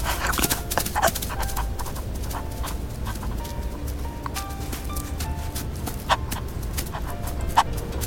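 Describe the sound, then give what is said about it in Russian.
A dog runs after a girl across a yard, its quick footfalls pattering steadily for several seconds with a few sharper clicks over constant background noise. “Пес Ры догоняет ее.”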